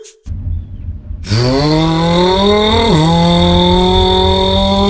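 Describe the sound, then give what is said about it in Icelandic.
An electric car's motor whine starts abruptly after a short quiet moment, climbs steadily in pitch, dips sharply, then holds at a level tone over a low hum. “Hvernig hljómar rafbíll?”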